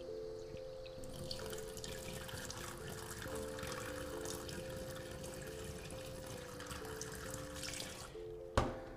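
Tap water runs into a drinking glass, making a faint, continuous rushing hiss under a sustained hum-like tone. A single sharp knock comes just before the end.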